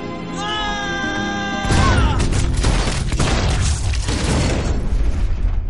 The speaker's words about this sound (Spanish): Sue le dispara y Gon cae malherido en el interior.